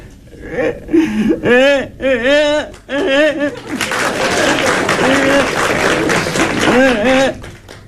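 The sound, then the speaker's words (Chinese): A child cries in loud, wavering sobbing wails, several bursts with rising and falling pitch, followed by a rougher stretch of noisy crying. “正吃着半截饭，孩子从外头哭着进来了。”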